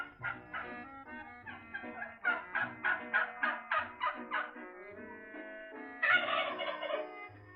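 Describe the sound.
Turkey gobbling as a sound effect in a Christmas comedy sketch about the holiday meal: several loud bursts of rapid, throaty gobbles in a quick run, then a last strong burst near the end.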